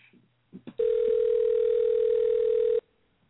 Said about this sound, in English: Here we go, dialing out to Seth